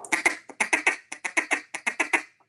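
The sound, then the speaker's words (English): A fast feed call blown on a duck call: many rapid, clipped quacking notes in a rolling, evenly paced rhythm, heard alone and fading out with a softer final note. “It's great to be able to blow a feed call fast”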